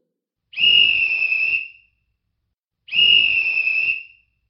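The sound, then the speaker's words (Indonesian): A whistle blown twice as a signal in a children's game: two loud, shrill blasts of about a second each, separated by a short pause, with no voices. “bila kalian mendengar bunyi peluit dua kali seperti ini,”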